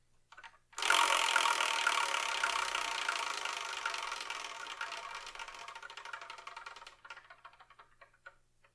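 A prize wheel being spun: a dense, rapid ticking starts abruptly, then gradually thins out and fades away over several seconds.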